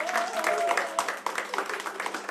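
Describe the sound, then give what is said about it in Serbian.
An audience applauds at a kafana-style music evening after the band members are introduced. Scattered claps run through the whole stretch, and a sustained voice or tone is heard over the opening part. “jedan veliki aplauz, molim vas.”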